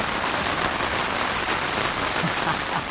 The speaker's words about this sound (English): Perhaps we let the rain have the last word.